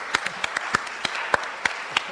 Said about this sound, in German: Großer Applaus an euch alle.